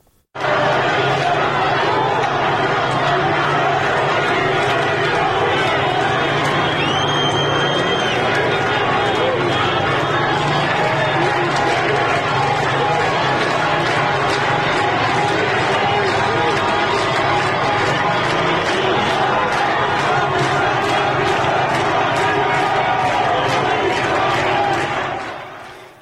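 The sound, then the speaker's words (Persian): A street protest crowd in Isfahan, Iran, roars with dense, continuous shouting and chanting from many voices. The noise stays loud and unbroken from start to finish. “فرصتی هست تا صدای یکی از تظاهرات رو هم در اصفهان بشنویم.”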